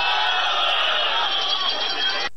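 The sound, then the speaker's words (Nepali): Crowd applause and cheering greet a speech by Prime Minister Balendra Shah, a dense, steady roar that holds at full strength throughout before stopping abruptly. “त्यही बेला सिट्ठी र ताली परर बजेका थिए।”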